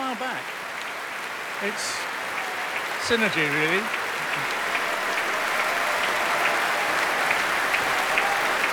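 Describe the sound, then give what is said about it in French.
A concert audience in a London hall applauds an orchestra and its star singer with steady, dense clapping throughout, while a voice speaks briefly over the ovation. “They're all lapping up this applause, and so they should.”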